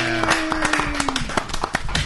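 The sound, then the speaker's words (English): Audience applause on a live show as a guest is introduced: irregular, scattered claps over a steady crowd hum, with a held voice sounding through the first half. “Thanks for clapping and not embarrassing me in front of Jeff.”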